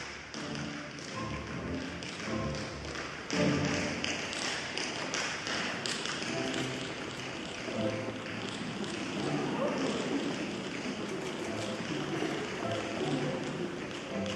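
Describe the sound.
Tap dancing by a Dutch tap dancer performing Morton Gould's tap dance concerto with the Belgrade Philharmonic: many quick, crisp taps and heavier thuds in a lively, continuous rhythm.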